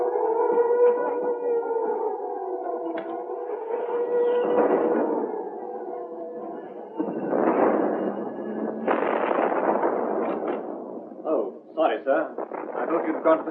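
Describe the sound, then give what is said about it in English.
Air raid siren effect in a radio drama, set at a headquarters in a heavily bombed area: sustained wavering siren tones carry through the first half, then give way to rough, noisy bursts and clatter that continue to the end. “This is an air raid warning, and I'm afraid our headquarters are in what we call Bomb Alley, so you must go to the shelter.”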